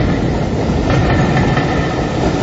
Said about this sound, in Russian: увидел лишь длинный выгнутый сегмент поезда, скользящий по рельсам, убегающий от зимы.